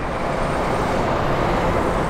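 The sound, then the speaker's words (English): A city bus arriving at the stop at Colfax and Broadway in Denver, on the number 52 route: a steady, dense rumble of engine and road noise that holds at an even level throughout. “The bus arrives”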